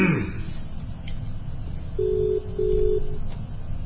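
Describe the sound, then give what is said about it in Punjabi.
A telephone tone signalling an incoming call on a radio call-in line: two steady, mid-pitched beeps, the second longer than the first, over a constant hum of background noise. “ਤੇ ਲਓ ਜੀ ਇੱਕ ਦਰਸ਼ਨ ਸਿੰਘ ਉਹਨਾਂ ਦੀ ਕਾਲ ਆਈ ਆ”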